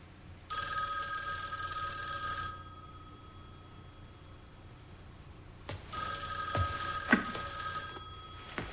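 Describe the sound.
A telephone rings twice in a home: two bright, trilling rings separated by a few seconds of quiet, with faint knocks around the second ring.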